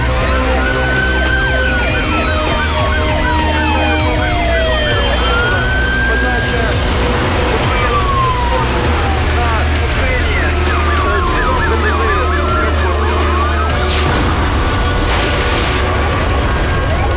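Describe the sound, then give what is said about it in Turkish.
Ambulance and fire engine sirens on an airport runway, several overlapping wailing tones rising and falling continuously over a loud, steady rumble. “Piste ambulans ve itfaiye aracı gönderin.”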